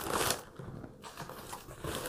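Newspaper packing crinkles and rustles while trading cards are unpacked, a soft, continuous papery crackle with a few slightly louder crumpling bursts and no talking.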